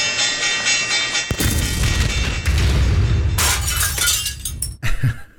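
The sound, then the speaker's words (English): Explosion sound effect: an abrupt, loud blast breaks in after a short tonal lead-in, then gives way to sustained crashing and shattering debris like breaking glass, with a few sharp bursts before it fades. “that was just uncalled for. An explosion. That was just uncalled for.”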